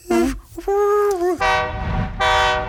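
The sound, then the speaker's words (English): Train horn sound effect sounding in four separate blasts, each a bright tonal chord. The first is short and wavering, the middle ones longer and steady, and the last is clipped short. “Maybe I'll put a train noise in here.”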